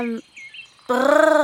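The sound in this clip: A voice imitates elves flying. A short voiced tone and a quiet pause give way to a bright, sustained, high-pitched hum that wavers slightly and holds steady to the end.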